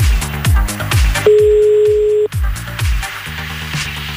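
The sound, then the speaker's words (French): Telephone dialing tones as a call is placed to a listener at New Year, a single steady beep lasting about a second, set against a rhythmic musical backing that continues before and after. “Allez hop, c'est parti, on y va, on appelle.”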